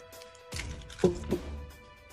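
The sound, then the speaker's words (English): Dice, among them eight-sided ones, dumped out onto a surface during a tabletop role-playing game: a sudden rattling clatter, then a second sharper burst, both quick and fairly faint against a quiet background. “Dump dice out.”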